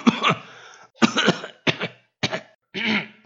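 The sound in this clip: A father coughs harshly from something caught in his throat, a series of rough, rasping coughs and throat clearing in several separate bursts with brief pauses between them.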